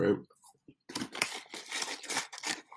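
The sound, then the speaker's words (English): Popcorn being eaten from a bag: a series of crinkling, rustling bursts of the bag and crunchy chewing, coming in uneven clusters after a short pause, with a brief voice sound at the start. “I apologize for eating a whole bag of popcorn on this episode.”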